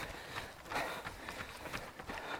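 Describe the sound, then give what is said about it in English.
Running footsteps of a marathon runner coming toward the listener during the Deseret News Marathon, a quick, even rhythm of soft patters over continuous background noise. “This is an optical illusion. He's just running at me. Or am I running at him? Who's running at who?”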